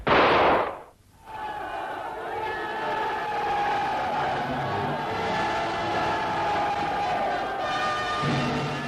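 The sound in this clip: A crowd cheers in celebration of a guerrilla unit's battle victory: a sharp loud burst opens, then a sustained, even roar of many voices carries on.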